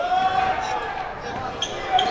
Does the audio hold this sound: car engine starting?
no